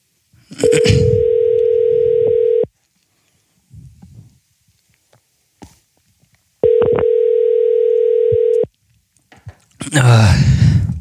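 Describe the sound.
A steady, low telephone tone sounds while a caller is being added to a call. It comes in two bursts of about two seconds each, separated by a longer gap with soft handling noises and breaths.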